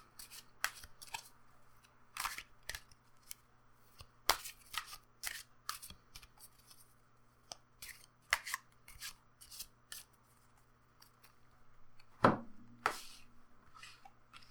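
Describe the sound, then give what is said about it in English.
A Rider-Waite tarot deck is handled as two cards are drawn: faint, sharp card snaps and papery clicks come at irregular intervals, with one louder snap near the end. “So I've got my deck here, and I actually am using the Rider-Waite. I actually am, because it lines up perfectly. So I'm going to pull 2 cards.”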